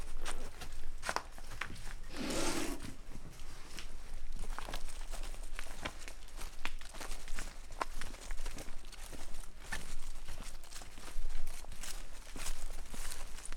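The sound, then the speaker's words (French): Footsteps on real stone steps and pebbles make many faint scuffing taps in a steady, uneven run that continues throughout. “Tu marches sur des vrais cailloux. Hein. C'est le seul truc. Les marches, elles sont en vraie pierre.”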